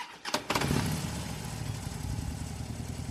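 A motorcycle with a chain of attached sidecars starts up: a brief burst as the engine catches, then a steady, loud low rumble of idling that holds evenly to the end.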